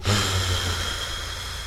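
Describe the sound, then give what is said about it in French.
A patient breathes on instruction during a medical procedure under local anesthesia: one long, breathy rush of air, strongest at the start and slowly easing off. “Inspirez, soufflez.”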